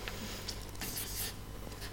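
Pen writing on paper, a faint, steady scratching with a few brief strokes standing out.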